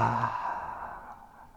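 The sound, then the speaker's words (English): A single loud exhale follows a held deep breath, a breathy, sighing rush of air that starts strong and fades away smoothly over about a second and a half. “Take another deep breath in, hold it for 5 seconds, 4, 3, 2, 1, and exhale out loud.”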